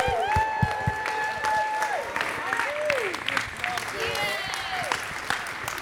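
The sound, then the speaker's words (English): An audience applauds and cheers to welcome a woman's husband at a church gathering, a dense, sustained wash of clapping with voices talking over it. “But would everybody please give it up for my amazing husband? Stand to your seat.”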